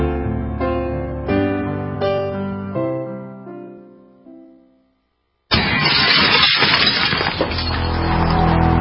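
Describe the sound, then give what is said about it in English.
Glass smashes during a home burglary break-in: a loud, harsh crash of breaking and splintering follows fading piano-like chords and a moment of silence, then carries on noisily to the end. “In the U.S., one in every 50 homes will have a break-in this year. Burglars call it smash and grab.”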